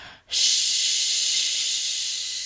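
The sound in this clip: A person's voice imitates a snake's hiss: one long, loud, steady hiss that starts abruptly after a short breathy lead-in and holds for about two seconds.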